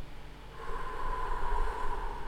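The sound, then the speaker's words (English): A deep inhale and exhale during a guided group breathing moment, heard as a steady, airy rush of breath that swells and holds for a couple of seconds, alone without talk. “So let's go ahead, inhale. Exhale.”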